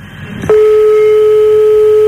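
Ringing tone of an outgoing telephone call: after a brief click, a single loud, steady tone at constant pitch holds unbroken to the end, with only faint line hiss beneath it.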